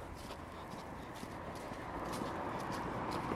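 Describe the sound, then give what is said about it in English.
Traffic on a busy road in Birmingham makes a constant faint rush of passing vehicles, with steady walking footsteps layered over it. “On quite a busy road, as you can probably hear.”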